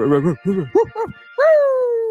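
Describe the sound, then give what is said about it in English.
A dog barks: a few short, voiced barks followed by a long, drawn-out whine that falls slowly in pitch. “That got Rumble going. My dog Rumble.”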